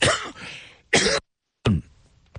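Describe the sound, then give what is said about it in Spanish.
Harsh coughing from a person coming down with a mild flu: a few loud, raspy bursts separated by short silences, ending with a faint short cough, with no talk over it. “me estoy medio agripando un poquito, me disculpo si a veces toso”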